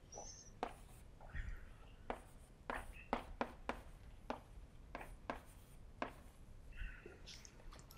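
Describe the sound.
Writing on a board during a physics lecture produces many short, scratchy strokes and sharp taps in an uneven rhythm, fairly faint and heard alone.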